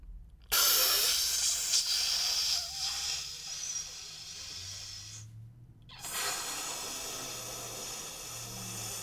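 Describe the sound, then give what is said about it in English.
Bong hit with inhaling and bubbling: two long, hissing draws of air separated by a short pause, with a low burbling rumble underneath, fairly faint and steady throughout. “For example, when I hit the bong,”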